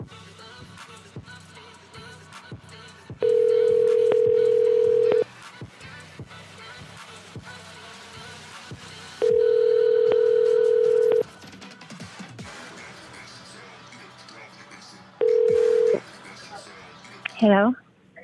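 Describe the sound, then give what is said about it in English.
Ringback tone of a call placed on a cell phone: three long, steady, low-pitched tones separated by pauses, the last one shorter, followed by a brief warbling chirp at the end. “One more try on the cell phone.”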